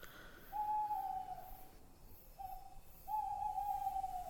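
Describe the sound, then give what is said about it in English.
Owls hoot in the woods at night. Three steady, mid-pitched hoots sound: a long one, then a short one, then another long one, over a faint background hiss. “The woods have come alive in the time that we've been out here, and you can hear the sounds of owls and small mammals.”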